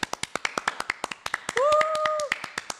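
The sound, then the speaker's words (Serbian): Applause for a colleague: many sharp, evenly spaced hand claps in a steady rhythm, with a brief sustained tone sounding over them in the middle. “Evo jedan aplauz prije nego što stavi slušalice.”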